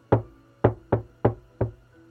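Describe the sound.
Five sharp knocks on a door, evenly spaced and equally loud, each with a short hollow decay, with no voices.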